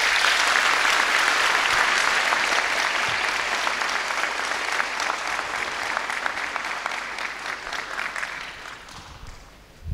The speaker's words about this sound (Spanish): Recibámoslos con fuerte aplauso.